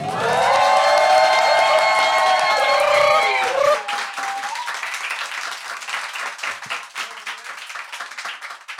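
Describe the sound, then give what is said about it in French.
A live show audience cheers with loud high-pitched shouts for about three seconds, then breaks into dense clapping that gradually thins out into scattered, uneven claps. “Quand je dis en live, vous applaudissez, vous faites un truc de fou.”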